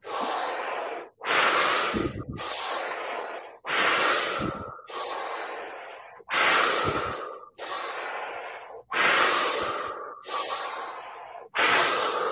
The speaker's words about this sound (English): We're going to do five breaths here.